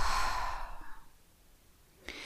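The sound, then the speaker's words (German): A deep exhale through the mouth during a yoga breathing exercise: one long, airy breath that starts strong and fades over about a second into quiet. “Mit der Ausatmung durch den Mund atme aus.”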